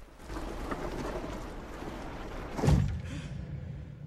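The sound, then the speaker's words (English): A heavy well lid is pushed shut over the opening. A faint scraping rumble builds to one dull, low thud, and the rumble trails off quietly afterward. “They push the heavy lid of the well over the opening, sealing it up.”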